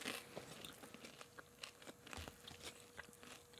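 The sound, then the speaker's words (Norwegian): Crunching and chewing of toast topped with barbecue sauce on a meat-free filling, heard as many crisp, irregular bites and mouth noises, fairly quiet and with no talk. “Å, god radio. Smatting inn i øra dine.”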